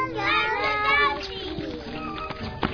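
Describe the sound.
A small cat, a lost kitty found in a cube of garbage, gives a drawn-out, wavering meow at the start that fades into thinner, fainter sounds, with a couple of brief knocks near the end.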